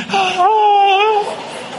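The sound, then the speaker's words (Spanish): A mourner's crying with a scream: one sustained, wavering wail with a raised scream-like note, loud for about a second before trailing off, alone without other voices. “llanto con grito como ese que acaba de sonar”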